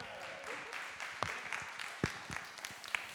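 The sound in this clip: Faint, scattered applause from an audience welcoming a speaker at a morning gathering, loose clapping with a few sharper individual claps standing out.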